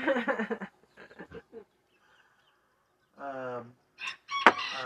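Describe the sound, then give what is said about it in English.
Rooster crowing among noisy birds, a few harmonic calls rising after a stretch of talk at the start, with a louder squawking burst near the end. “Fucking birds noisy, you know.”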